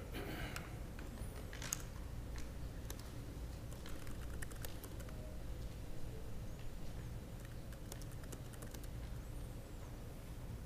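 Faint typing on a computer keyboard, with many quick, light key clicks in an uneven patter that runs throughout.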